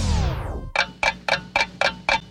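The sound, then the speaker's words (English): Clock ticking effect in a radio ad for a dental assistant program college: a falling whoosh gives way to six steady, crisp ticks at an even pace, with no voices. “The clock is ticking.”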